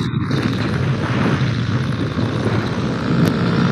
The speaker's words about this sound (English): His landing looks way more dramatic. He was trying to get back to the runway too, but at this point, he is already. He's landing somewhere in the field.